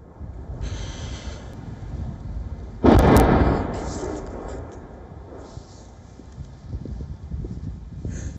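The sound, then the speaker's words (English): Artillery shelling in the Luhansk region. A single heavy boom bursts out suddenly, then rumbles away over a couple of seconds against steady background noise. “What you saw there was the sound of shelling. There was shelling in the Luhansk region too.”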